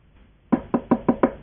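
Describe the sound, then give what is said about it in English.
Five firm knocks on a door, evenly spaced in a steady rhythm after a short quiet lead-in. Each knock is a sharp, hollow thud that decays quickly. “He knocked at the door.”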